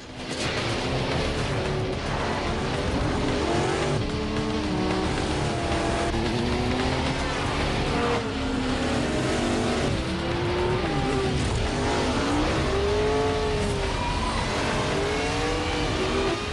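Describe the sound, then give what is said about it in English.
Racing car engine weaving through traffic while a motorbike follows it. The engine roars loudly and without a break, its pitch rising and falling as it revs. “Ford, in his racing car, pursued by Trey on his bike, weaves through traffic.”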